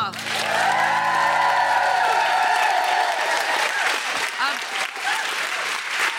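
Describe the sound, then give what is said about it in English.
An audience gives a guest a loud ovation, with clapping, cheers and whoops holding at full strength. A low held musical tone sounds beneath the first half. “Everybody, please give it up for Susan Wokoma.”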